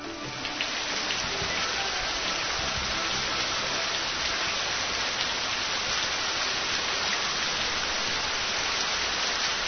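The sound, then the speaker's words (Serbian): A rain sound effect plays as a steady, dense hiss of falling drops with a soft patter, holding an even level from start to finish with no voices. “Da vam kažem, ja sam vesela jer mi je tonac obećao kišu.”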